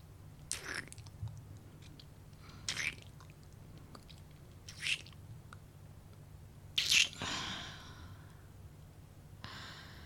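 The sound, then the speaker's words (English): Soft, wet kissing smacks, five in all at roughly even intervals, quiet against a faint low hum, with the fourth slightly longer and breathier than the rest. “And all these kisses that I'm not done giving.”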